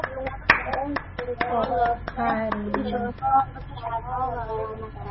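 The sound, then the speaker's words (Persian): Children clap for themselves after reciting verses in a group lesson. Quick, uneven claps run through the whole clip beneath children's voices. “خودت رو تشویق کنید، انقدر خوبی.”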